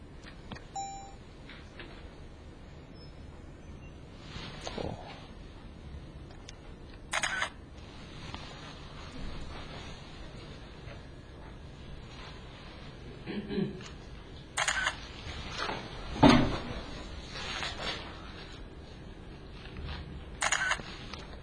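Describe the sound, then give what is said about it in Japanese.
Camera shutter clicks as photos are taken during a technical lecture on differential equations, a few short, sharp snaps scattered over a faint background. “写真を撮って。”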